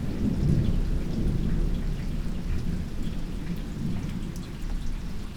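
Thunderstorm with steady rain on an August afternoon: a continuous hiss of falling rain over a low, rolling thunder rumble, fairly quiet and even throughout, with no voices.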